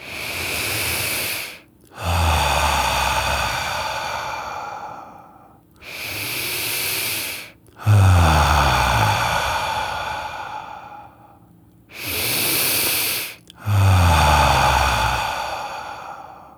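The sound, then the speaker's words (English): Three slow deep breaths, each a shorter hissing inhale followed by a longer, loud, airy exhale, separated by brief pauses, with no talking. “Where do you feel the most tension? Go there right now and do three more deep breaths.”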